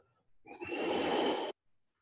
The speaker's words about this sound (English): Breathe out.